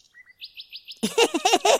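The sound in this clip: A small bird chirps in a quick series of short, high, clean tweets, followed by a louder, busier stretch of rapid warbling chatter.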